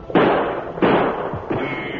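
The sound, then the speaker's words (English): Gunshots ring out during an outlaw attack on a stagecoach: three sharp, loud blasts spaced evenly apart, each with a short decaying tail. No voices are heard. “I'll try a quick shot.”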